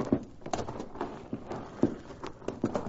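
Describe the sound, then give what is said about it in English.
Hooves clip-clop as horses are ridden off, with many quick, uneven hoofbeats sounding at a moderate level. “I think you'd better mount up and start riding.”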